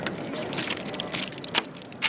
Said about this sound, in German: Mit seinem Schlüsselbund bestellt er einen großen silbernen Aufzugkorb, der in fast 50 Meter Höhe hinauffährt.